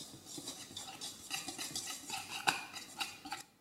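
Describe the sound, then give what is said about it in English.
A utensil stirs egg and milk together in a bowl, making a quick, continuous run of light clinks and scrapes against the sides, with no talking. “And we're just going to give that a stir, so it's all combined.”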